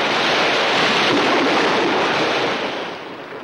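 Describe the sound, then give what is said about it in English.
Roaring waves of a raging sea churn around a rowboat in a steady, dense wash of surf noise. The sound stays loud and unbroken and eases slightly toward the end. “They dump Sawyer's limp body into the raging sea.”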